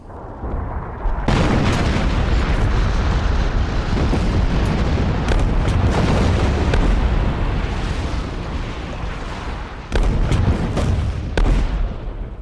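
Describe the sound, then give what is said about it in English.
Artillery bombardment pounds Kum Kale, its beachfront and the surrounding hills before the Gallipoli landings: a continuous heavy roar of explosions, punctuated by several sharper, louder blasts. “a preparatory bombardment of Kum Kale commenced along with the beachfront and surrounding hills.”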